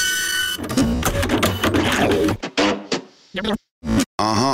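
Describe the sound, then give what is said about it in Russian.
A printer sound effect in a radio jingle gives loud, dense, choppy mechanical bursts that stop and start in short stuttering fragments with sharp gaps toward the end. “Отпечатано на 4D принтере. С негативов окружающей действительности.”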